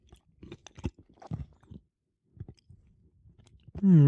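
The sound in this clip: Someone chews an olive while tasting it, giving soft, moist, slightly crunchy bursts in an uneven rhythm, quiet and close, with a few short pauses.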